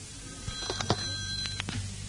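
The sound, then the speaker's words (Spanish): A telephone rings in a short burst, a bright sustained tone with a rattling mechanical edge lasting about a second before it stops. “Mi caudillo, le llaman al teléfono.”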